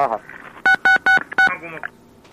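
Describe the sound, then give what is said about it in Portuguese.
Four electronic keypad tones from the push buttons of an old corded telephone, each a steady dual-pitched beep, three in quick succession and a fourth after a short gap, with brief voice sounds around them. “Ah, e apertando os botões? É. Exatamente. Ele falou que não é sem fio, não. É até o telefone antigo.”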